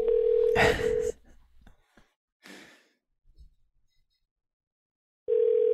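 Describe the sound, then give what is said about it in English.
Telephone tones as a call is placed back: a steady mid-pitched tone with a burst of noise, then near-silence broken by a few faint breathy sounds, before the same tone returns at the end. “All right, let's give him a call back.”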